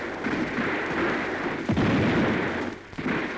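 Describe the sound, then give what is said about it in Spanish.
Gunfire in a radio drama shootout, a few booming shots standing out over a continuous rough noise bed, with no voices. “¡Comiencen a disparar!”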